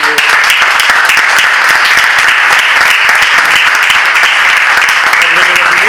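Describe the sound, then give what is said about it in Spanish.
Loud, sustained audience applause at an exhibition opening, thanking the people who prepared it: a thick, even wash of many hands clapping with no pauses. “Así que a ellos y a ellas yo creo que merecen un aplauso nuestro.”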